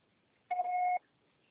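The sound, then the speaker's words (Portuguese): A single voicemail beep marking the start of recording on a mobile phone carrier's message system: one steady electronic tone lasting about half a second, clean and alone against near silence. “Grave seu recado. Sua proposta será tarifada após o sinal.”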